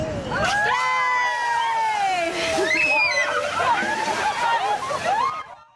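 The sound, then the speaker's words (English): Ice water dumped from a bucket over someone for the Ice Bucket Challenge: a heavy splash and running, sloshing water, with high shrieks and excited voices rising over it before it fades out. “That's the sound of the Ice Bucket Challenge, a social media initiative intended to raise awareness and funds for the ALS Association.”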